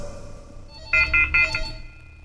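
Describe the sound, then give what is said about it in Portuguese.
A phone ringing as a call comes in: three short, bright electronic ring pulses in quick succession, fairly high-pitched and clear over a quiet background. “Agora sim, tá tocando. A Juliana vai correr aqui de novo para atender.”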